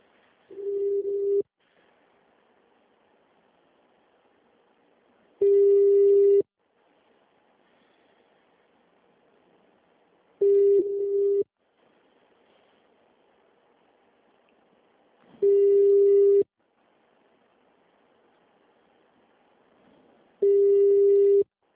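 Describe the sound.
Telephone busy tone after a dropped, transferred call: five steady mid-pitched tone bursts, each about a second long, separated by roughly four-second gaps of near silence.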